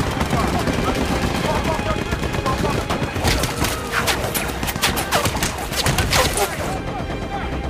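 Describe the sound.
Heavy gunfire from tank crews opening up on a tree line in a war film battle against Nazi troops: dense, continuous rapid bursts of machine-gun and cannon fire, loud throughout with no break.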